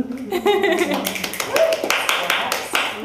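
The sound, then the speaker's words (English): Audience clapping at a live gathering of friends where yoga classes and tarot card readers are on offer. Scattered sharp claps mix with lively talk and voices throughout. “that audience you hear are all of our lovely friends that came to hang out today at this event”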